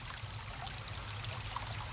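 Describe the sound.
Water flows steadily along a riverside, a continuous soft rush with no distinct splashes and no voices.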